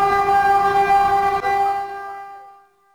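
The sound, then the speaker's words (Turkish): A high-speed train sounds its horn as it approaches a station, a loud, steady, chord-like tone that holds for about two seconds and then fades away. “Hızlı tren yaklaştıkça endişe arttı.”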